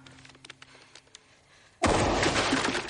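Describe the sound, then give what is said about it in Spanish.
A gunshot erupts in a tense thriller film scene. Faint scattered taps and a low hum give way to one sudden, loud blast whose dense roar holds steady to the end. “Se produce un disparo”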